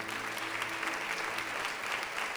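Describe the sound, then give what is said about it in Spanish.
A church audience applauds as an offering to the Lord. The applause is faint and steady, with a continuous patter of many hands and no break across the short span. “Ofrezcámosle una ofrenda de aplausos al Señor.”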